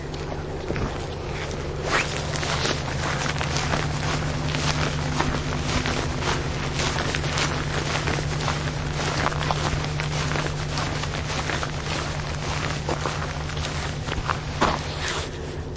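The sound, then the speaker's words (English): Footsteps walking along the shore of McMurdo Sound in Antarctica, in light snow with little wind: steady, rhythmic crunching steps continue throughout over a constant low hum. “now we're walking along the shore of the McMurdo Sound.”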